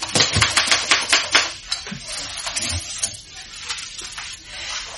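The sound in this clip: A typewriter being used to type a note: a rapid run of sharp keystroke clacks for about a second and a half, then sparser, quieter taps and mechanical clicks.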